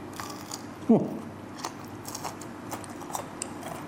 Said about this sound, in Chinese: 听得见那个酥脆那个感觉啊，我觉得焦溜肥肠第一点啊，就是这个口感是很多人特别喜欢的。